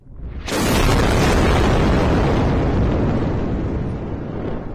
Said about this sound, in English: Gaza pounded again by Israeli airstrikes.